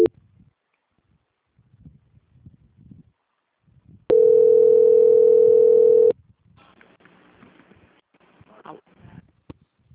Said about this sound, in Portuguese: Estou tentando transferir lá, mas acho que eles estão com o ramal deles ocupando, tá? Só um minutinho. Transferência.